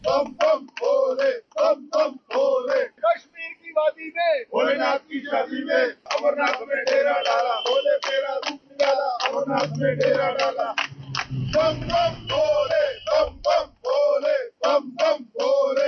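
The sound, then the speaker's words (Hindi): Hindu pilgrims chant 'Bam Bam Bhole' and 'Barfani Baba ki Jai' as the yatra to the holy cave opens on the Baltal route in Ganderbal, Jammu and Kashmir. Many voices shout loud, rhythmic bursts almost without a break, with a low rumble partway through. “इस दौरान श्रद्धालुओं ने बम बम भोले और बर्फानी बाबा की जय के जयकारे लगाए।”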